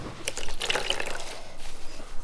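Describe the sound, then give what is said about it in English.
A wet disposable cloth washes an elderly man's body, making soft, watery wiping with faint drips and trickles. The sound is quiet and continuous. “With disposable cloth, she washes his body.”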